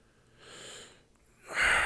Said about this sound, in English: hocked some phlegm from his throat